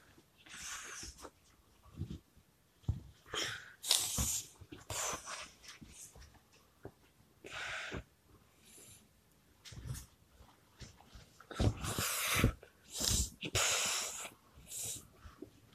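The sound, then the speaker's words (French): Deep breathing from a person lying down before a bedtime story: a few slow, airy, hissing breaths swell and fade, with soft snuffling and quieter breath sounds in the pauses between. “Il faut respirer trois fois. Voilà, trois fois tu respires.”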